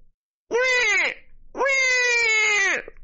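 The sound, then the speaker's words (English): A voice imitates the crying of a squalling baby with two drawn-out, wavering wails; the second is longer than the first, and both are loud and high-pitched with a brief pause between them. “Oh my god, he's a baby. A squalling infant lies on the ground.”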